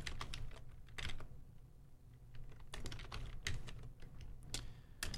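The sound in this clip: Rapid clicking of fingers typing on a computer keyboard while entering expressions and code, with many keystrokes in quick bursts separated by brief pauses, and no talking.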